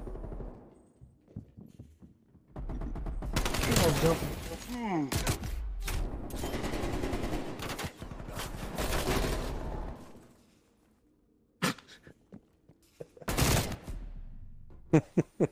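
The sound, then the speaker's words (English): Rapid video game gunfire: long bursts of automatic shots clatter loudly in several volleys, then fall away to a few sharp, isolated shots near the end. “I just shot a guy so many times.”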